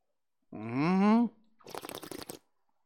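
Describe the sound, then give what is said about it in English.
Air is slurped through the mouth while tasting wine, a bubbly, fluttering hiss lasting under a second. A short voiced sound with rising pitch comes just before it. “tasting method, which can easily be identified by the strange noise emitted by the mouth, involved sucking a little air.”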